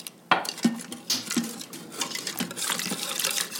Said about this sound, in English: And now I'm going to whisk this right into the Instant Pot with the hot milk and rice.